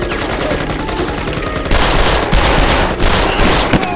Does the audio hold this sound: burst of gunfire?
yes